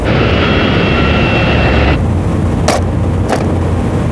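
A toy drone whirs loudly with a buzzing whine that cuts off abruptly, followed by two brief sharp knocks over steady background rumble.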